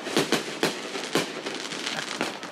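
Fireworks exploding outside on the Fourth of July: a few loud, sharp bangs early on, then a denser stretch of crackling pops, with no talk.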